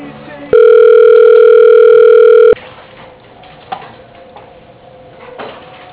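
A telephone call to a sales department is transferred to voicemail with a single loud, steady tone lasting about two seconds. It breaks off into quiet line hiss with a faint click or two.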